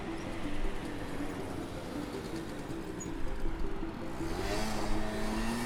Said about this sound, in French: Ah, il y a un taxi.